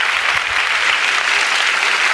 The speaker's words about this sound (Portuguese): E vamos aplaudi-lo,